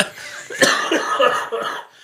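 Coughing in a short fit of a few harsh, breathy bursts at moderate loudness, separated by brief gaps and fading out at the end.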